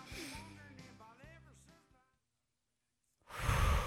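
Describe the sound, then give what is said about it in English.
A deep breath taken in and pushed out: a soft, sighing voiced breath fades into a short pause, then a loud, rushing breath bursts out near the end. “Okay, do this with me. Breathe in deep.”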